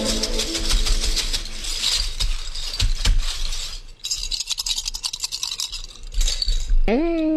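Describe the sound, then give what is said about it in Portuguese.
Plastic bottle caps are shaken and tossed during a fortune-telling reading, making a dense, continuous rattling and clattering with scraping clicks that stays fairly loud throughout. “joga as tampinhas pra mim”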